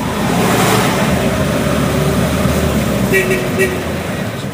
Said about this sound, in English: I'm sitting in a 1951 Chevy. It's going about 65 miles an hour.